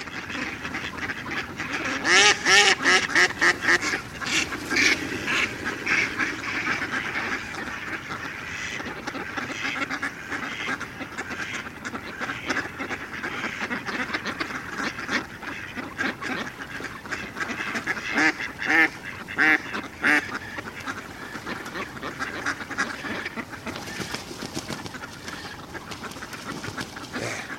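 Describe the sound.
About a hundred mallard ducks quack on the ground near a pond at dusk, a dense, unbroken chorus of overlapping calls that stays loud throughout.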